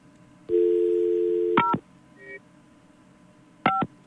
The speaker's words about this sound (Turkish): Bak şimdi arıyorum.